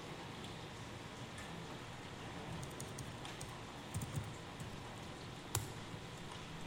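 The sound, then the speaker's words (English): Someone types on a computer keyboard, with sparse, soft key clicks scattered over a faint, steady background hiss. “There. I'm going to type them.”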